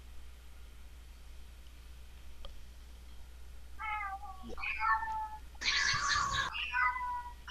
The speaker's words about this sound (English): One of those sound effects was me picking up a cat.